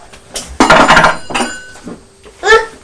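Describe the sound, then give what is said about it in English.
A child bangs a spoon on a table, making a few sharp clattering knocks at irregular intervals, the loudest near the start. “Banging. You're banging the table with your spoon, aren't you?”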